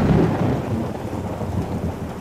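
Thunder rolls through a thunderstorm, a loud, deep rumble under a continuous hiss of heavy rain that holds steady across the whole stretch.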